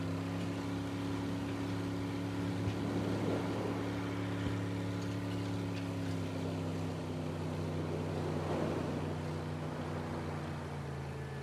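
Steady low engine drone of a motorboat motoring slowly out of harbour along a breakwater on calm, glassy water, a continuous even hum with a faint wash of water and no voices.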